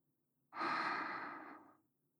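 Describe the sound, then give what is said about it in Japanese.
One slow, deep exhale during a guided breathing exercise: a soft, breathy rush that starts abruptly after a moment of quiet, holds for over a second, then tapers away into silence. “息を吐き出して。ゆっくり息を吸って。”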